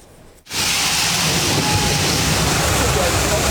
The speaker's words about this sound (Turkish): Çalışma sırasında ana boru patladı. Sokak ve bir iş yeri su içinde kaldı. Avcılar'da tonlarca su boşa aktı.